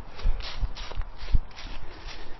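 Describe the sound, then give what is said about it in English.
Footsteps of a person who has slowed from a run to a walk land as soft, dull thuds in an even, fairly quick rhythm, with no talk over them. “Okay, I'm gonna go back to a walk.”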